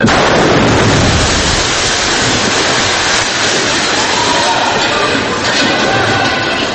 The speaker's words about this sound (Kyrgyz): Мындай жер астын үстүн болгондой, кулак тундурган жарылуу жөнөкөй адамдарга үрөй учурган көрүнүш катары сезилсе